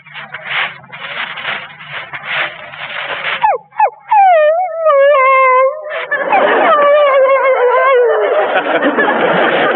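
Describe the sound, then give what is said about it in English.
A human voice imitates a dog whining to go with its master. A rough, breathy stretch leads into high, wavering whimpers whose pitch bends up and down, then a strained, noisy whine runs to the end. “When a dog feels he is being left behind and wants to go along with his master, he'll sound like this.”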